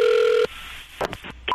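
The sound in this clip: A telephone dials out for a prank call. It opens with a steady touch-tone beep, then a few short clicky bursts follow, and one more clear tone sounds at the end.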